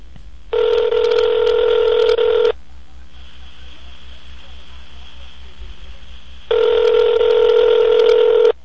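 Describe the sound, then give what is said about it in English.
A phone line rings out while a call is placed: two long, even ringback tones, each about two seconds, separated by a quiet stretch of low line hum. “Dialing him up now, you'll see what happens.”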